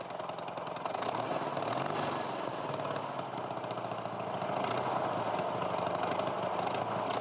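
A police motorcycle's engine runs on a narrow alley, giving a steady, rough, mid-pitched drone that stays even throughout.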